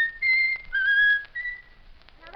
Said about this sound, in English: Whistle my country tis of thee.